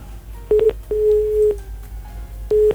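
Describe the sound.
Telephone tones after a dropped call, a few short steady beeps and one longer level tone with silent gaps between them.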